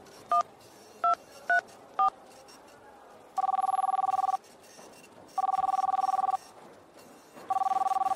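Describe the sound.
Four short telephone keypad dialing beeps, then three long steady ringback tones with pauses between them as a call is placed from an office canteen during a lunch break.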